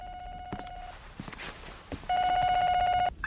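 An electronic telephone ringtone sounds in two long, steady, buzzy bursts separated by a pause, with faint clatter and movement between them.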